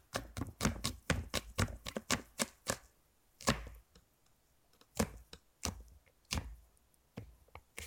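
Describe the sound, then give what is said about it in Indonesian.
Garlic being crushed and chopped with a knife: many sharp, quick strikes in fast rhythmic runs, a short pause, then sparser, irregular chops, with no talking. “sekarang kita geprek bawang putih nah habis hmm. itu kita cacah”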